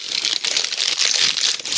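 Wrapping paper crinkles and tears as a wrapped gift box is opened, a dense, continuous rustle of fine crackles lasting the whole clip at a fairly quiet level, with no talk.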